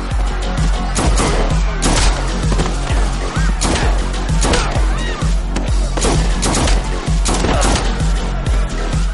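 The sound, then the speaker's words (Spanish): Pistol gunfire in an action film as a gunman shoots guards near a stage and audience area: many loud, rapid shots in a dense, relentless barrage mixed with crashing impacts. “Salta a la zona del público y abate a cuantos guardias se le acercan. Apunta con gran agilidad y precisión.”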